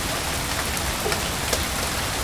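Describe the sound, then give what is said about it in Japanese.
Rain falling steadily, a dense, even hiss of drops with faint scattered taps throughout and no voices. “ちょうど、あと3歩で、雨降ってる場所と降ってない場所の境界線。またいだ。”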